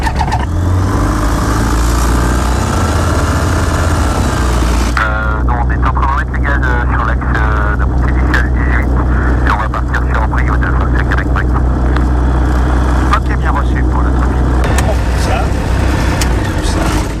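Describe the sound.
A small airplane engine roars loudly and steadily as the pilot starts up after the pre-flight check. The engine drone fills the whole clip, and a voice speaks over it in the second half.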